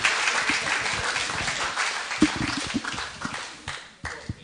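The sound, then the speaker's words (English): An audience claps to welcome a speaker to the stage. The dense applause holds steady at first, then thins into sparser, uneven claps toward the end. “I just want to give him a hand as he comes and gets himself sorted out.”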